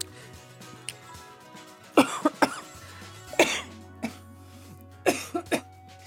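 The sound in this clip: Coughing from a man who choked mid-sentence: a series of sharp, harsh coughs in uneven clusters, with a faint low hum underneath.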